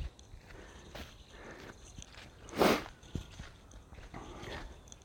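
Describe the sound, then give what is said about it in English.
Footsteps on a trail, a steady walking rhythm of soft crunching scuffs with one louder crunch near the middle, with no talking. “God, I've been walking forever. I don't even know where the hell I'm at. I don't know if I'm ever going to get out of this trail.”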